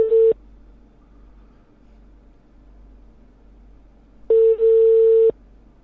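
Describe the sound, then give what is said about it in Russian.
Telephone busy signal for an engaged number: a steady mid-pitched tone. A short beep opens, then a long stretch of low hiss and hum, then a longer tone with one brief break near its start. “Номер занят. Оставьте сообщение. Да, ребят, короче, она номер пока занесла в блок.”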